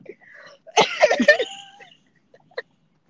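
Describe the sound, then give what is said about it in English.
Coughing and throat clearing from a tickle in the throat: a tight cluster of rough, loud bursts, then a short faint catch near the end. “Got a tickle in my throat. Just a tinch of a tickle.”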